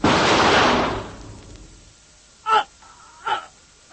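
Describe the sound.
A single revolver shot is fired aboard a craft's cabin, a loud burst that fades out over about a second. A few short, breathy vocal gasps or grunts follow.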